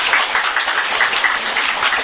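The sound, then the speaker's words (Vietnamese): A round of applause at a Buddhist gathering honoring Diệu Ngọc: brisk, dense clapping from many hands, even and continuous, with no voices over it. “Con xin đa tạ sư phụ. Bà Diệu Ngọc một tràng pháo tay.”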